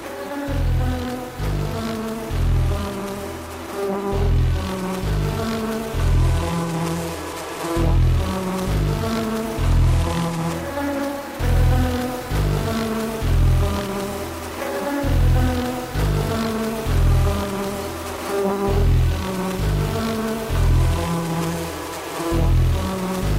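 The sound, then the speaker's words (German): Honeybees buzzing inside a bee house, heard as a dense insect drone woven into a rhythmic musical track with regular low pulsing beats and sustained tones throughout. “Sie haben sich Schutzkleidung übergezogen und sind mit Mikrofonen ins Bienenhaus gekrochen.”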